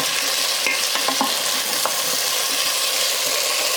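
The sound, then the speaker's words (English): Potatoes cooking in a pot of curry are stirred over a steady, dense sizzle of frying. A few light clicks and scrapes from the spoon cut through, with no voices. “Okay, those potatoes have cooked for about 5 minutes. I'm gonna give it another stir.”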